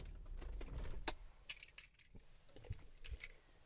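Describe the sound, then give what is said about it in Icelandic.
Metallic jingling of car keys being taken out of a car, heard as a few bright clinks and rattles spread across the moment, with quieter handling noise between them. “Tek lyklan úr bílnum sem fæstir gera nú reyndar hér slóðir.”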